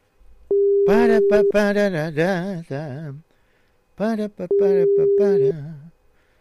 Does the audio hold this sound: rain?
no